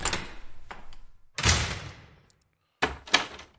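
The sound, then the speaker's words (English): A door is opened, giving a few soft thuds and rattling knocks in separate bursts, with a short silent pause before a final pair of knocks. “Oh, let me get the door real quick.”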